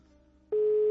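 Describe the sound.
A steady electronic telephone tone on a call that goes unanswered switches on about halfway through and holds loud and unbroken to the end, after a quiet hum.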